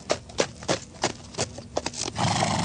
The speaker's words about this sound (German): Emily Louise auf ihrem Pony angeritten kam